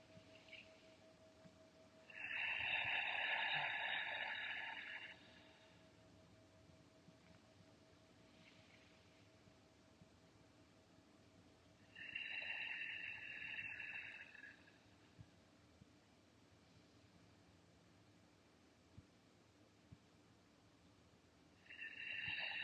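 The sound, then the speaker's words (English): Slow deep inhales and exhales at an unhurried pace, each a long, airy rush lasting a couple of seconds, separated by long quiet pauses. “We'll begin with three deep inhales and exhales at your own pace.”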